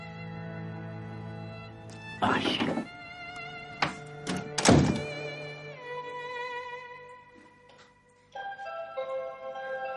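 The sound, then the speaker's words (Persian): A door is shut, giving two loud, heavy thunks and a few lighter knocks over steady background tones. “آبجه در رو ببن.”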